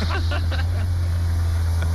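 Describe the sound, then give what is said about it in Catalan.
A car engine started and running, a steady low drone that holds even throughout, with brief voices over it near the start. “Això és el cotxe engegat, eh?”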